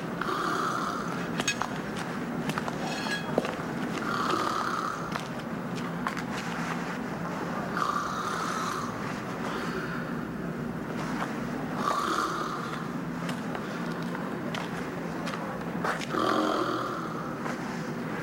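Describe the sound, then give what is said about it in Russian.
A nanny asleep on a chair beside a bed snores in slow, rhythmic rasping breaths that recur every few seconds over a steady low background hum. “Рядом с кроватью на стуле храпит уснувшая няня мальчика.”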